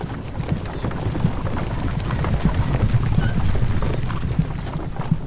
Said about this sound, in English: Can I try to stop these damn horses again as part of my move action on the strength check?